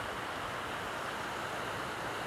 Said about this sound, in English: the sound of the water running over the rocks